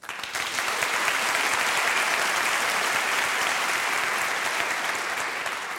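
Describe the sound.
Dense, steady applause from an audience welcoming a young piano trio (violinist, cellist and pianist aged 18, 19 and 15) onto the stage of Harris Hall, holding at an even, loud level from start to finish.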